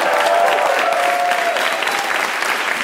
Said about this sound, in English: Can we give one more hand to all our guests tonight?